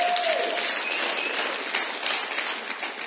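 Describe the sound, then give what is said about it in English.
Applause from a church audience after worship, a dense, steady clapping that holds at an even loudness for about three seconds with no clear breaks. “Give the Lord a big hand, please.”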